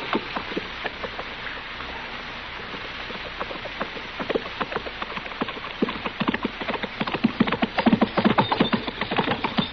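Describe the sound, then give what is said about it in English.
Horse hooves galloping as a rider approaches in a hurry over dusty ground, a rapid run of many hoofbeats that grows steadily louder and denser toward the end. “somebody sure is riding at us in a hurry.”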